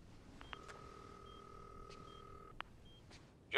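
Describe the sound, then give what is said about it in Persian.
A phone's redial button is pressed, setting off a steady electronic dialing tone that holds for about two seconds. A sharp click follows, then a sudden loud burst at the very end. “یه چیزی مثل کنترله و یه گوشی. شما دیگه مجدد رو بزن.”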